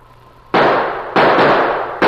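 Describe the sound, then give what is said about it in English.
Three loud gunshots in a snowy wilderness, each a sharp blast followed by a long decaying wash of noise, spaced unevenly with no voices. “Gunshots blasted the silence of the wilderness.”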